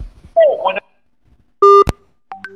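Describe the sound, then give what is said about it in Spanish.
Telephone dialing tones as a call is placed: a brief voice, then a loud steady dual-pitched beep, a sharp click and a shorter tone. “vamos a llamarlo a Freddy Benítez”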